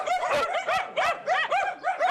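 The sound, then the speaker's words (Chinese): Many dogs barking in rapid succession: high, yippy barks that arch up and down in pitch, coming in quick, irregular bursts, loud and with no voices over them. “有狗啊。这么多狗”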